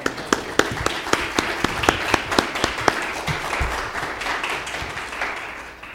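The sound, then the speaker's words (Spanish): Applause for the Lord during a bilingual Spanish-English sermon: sharp, evenly spaced rhythmic claps ring out for the first few seconds, then blur into a looser wash of clapping that gradually fades away. “Dame un aplauso al Señor porque give the Lord a hand.”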